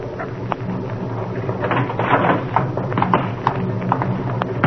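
Hooves of a horse-drawn cab clip-clop as it arrives at midnight, a steady series of dull knocking steps with slightly uneven spacing over a low background hum, with no voices.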